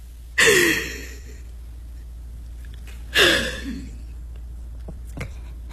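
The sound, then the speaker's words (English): Two deep breaths, each a loud airy rush of breathing that tails off slowly, a few seconds apart over a steady low hum. “let's just breathe. Take a deep breath”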